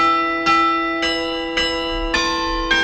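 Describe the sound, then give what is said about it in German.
Church bells ring with five regular, evenly spaced strokes, each about half a second apart, over a continuous bright, humming ring. “Oder an Silvester, da läuten oft alle Glocken einer Stadt zusammen.”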